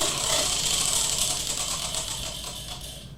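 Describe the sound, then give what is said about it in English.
Rapid ticking of a prize wheel spun during a game: a dense, steady run of clicks that gradually grows fainter and thinner toward the end. “Shall we spin that wheel? Let's go. Let's do it.”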